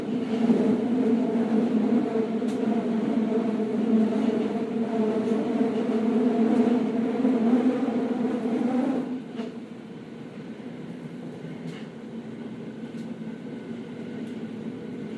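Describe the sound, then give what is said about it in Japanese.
Tokyo subway train running between stations: a steady, loud low rumble and hum that drops noticeably in level about two-thirds through, then continues more quietly with a few light clicks and rattles. “The next station is 本郷三丁目。Please change here for the 都営大江戸 line.”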